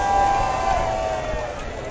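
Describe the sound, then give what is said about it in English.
Crowd voices chant together at a greased pole contest, where contestants walk a 45-foot horizontal pole coated in eco-friendly grease over water; a loud, sustained, tonal mass of voices holds steady throughout. “Every name that comes up, there's a big chant from the crowd. Lots of people here rooting these guys on.”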